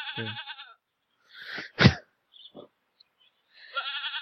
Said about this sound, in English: mention the fact that there's, like, sheep. Goats in the background.